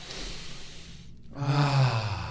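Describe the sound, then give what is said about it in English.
A deep breath is drawn in and let out: a soft, airy inhale, a brief pause, then a louder, partly voiced sighing exhale. “All right, so let's take a deep breath.”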